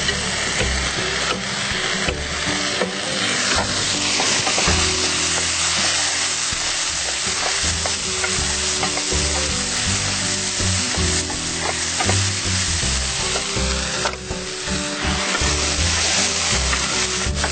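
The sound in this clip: Onions frying in a pan: a steady, crackling sizzle runs throughout, with occasional scraping and clinking as they are stirred, and no voices.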